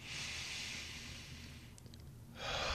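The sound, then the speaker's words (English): Slow breathing in and out to open a yoga class: a faint, airy, hissing breath lasts over a second, falls quiet briefly, then a second breath begins and grows slightly louder. “Yes, we're going to breathe in and then we're going to breathe out 2 seconds each cuz we want everybody to come in with a fresh mind.”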